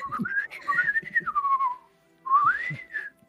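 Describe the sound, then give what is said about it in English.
Whistled speech in a whistle language, as phrases are taught: two long, clear whistled phrases with smooth gliding pitch, the first about two seconds and the second shorter after a brief pause. “starts teaching her how to say some things on whistle tongue.”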